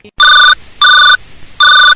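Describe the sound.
A telephone rings with an incoming call to a radio show: three loud, bright electronic bursts of steady pitch, evenly spaced with short silent gaps between them.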